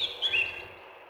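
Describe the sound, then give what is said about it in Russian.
Eurasian blackcap singing, a few high, clear whistled notes that are faint and brief before fading away. “Славка Черноголовка – один из самых даровитых и миловидных певцов. Послушаем ее.”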